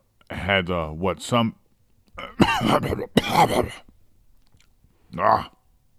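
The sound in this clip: Throat clearing from grainy coffee caught in the throat: a few harsh, rasping bursts mixed with voiced throaty sounds, and a shorter rough burst near the end.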